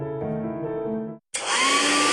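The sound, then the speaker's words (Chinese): Hair dryer blowing: a buzzing, humming drone runs for about a second, cuts out briefly, then gives way to a loud, steady airy rush with a thin high whine running through it. “哎，每次吹完头发又毛又斑，真闹心。”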